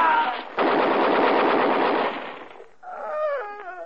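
Machine gun fire in one loud, sustained burst of rapid shots lasting about a second and a half, followed by a brief tonal cry.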